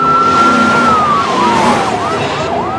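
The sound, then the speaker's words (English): Cars speed away with police cars in pursuit, a wailing siren sliding gradually lower in pitch over a loud, steady roar of engines and road noise. “Ricky pulls away, followed closely by the cops as they speed past Reese and the boys.”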